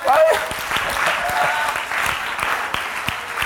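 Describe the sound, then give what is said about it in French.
Congregation applause acclaiming God during a church sermon: dense, continuous clapping that holds steady throughout, with voices rising over it. “Acclamez le Dieu Tout-Puissant.”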